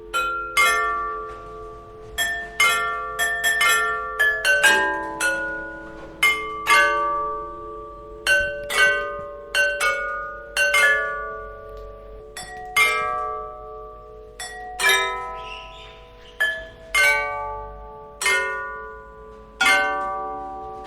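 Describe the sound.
Bright, glassy chimes from a carillon of 37 Meissen porcelain bells in a church tower, playing the chorale Die Himmel rühmen des Ewigen Ehre: many loud struck tones in a steady, measured melody, each ringing and decaying before the next.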